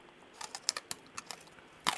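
Crunchy chewing of smoked pickled daikon radish comes through as many crisp, sharp crunches at an uneven rhythm, fairly faint, with no talk over them.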